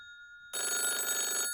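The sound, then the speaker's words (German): A telephone bell rings in one bright, buzzing burst of about a second, rising suddenly out of near silence with no voices. “Lass einfach klingeln.”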